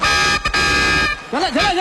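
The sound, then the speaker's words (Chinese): A horn blown on stage at a live Spring Festival gala gives a bright, brassy, sustained blast for about a second, then breaks into a wobbling, sliding tone that bends up and down in pitch. “江球球到上海，喇叭吹起来。”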